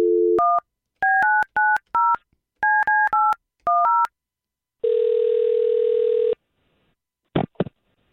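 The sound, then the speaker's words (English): A telephone being dialed to call someone: a quick run of keypad beeps in short bursts, then one long, steady ringing tone, then a brief click. “We'll call him and see if we can't get him on the line.”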